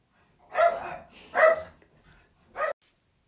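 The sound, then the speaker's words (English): A pet dog barks three times, in loud sharp bursts spaced apart, followed by one short faint yip, alone with no talk. “Oh, sorry, that's my dog.”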